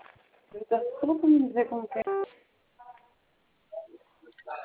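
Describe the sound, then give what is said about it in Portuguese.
A single telephone keypad tone from pressing zero in a bank's automated phone menu, a brief steady beep that follows a recorded voice prompt. Faint, short line sounds come after it. “Tecle zero agora e fale com um dos nossos consultores.”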